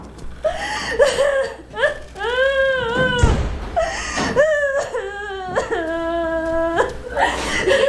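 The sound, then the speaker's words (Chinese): A child crying and sobbing: continuous, loud, wavering wails with several pitched cries broken by short sobbing breaths, and no clear speech. “别哭了”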